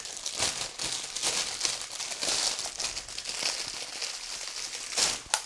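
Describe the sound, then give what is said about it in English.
Plastic packaging crinkles as a set of reusable silicone bags is unwrapped, producing continuous crackling with sharper crisp rustles scattered throughout and a louder burst near the end. “silicone bags, which I'm just opening now, and because they came today. And let's check these out. So sorry for all the crinkling sound.”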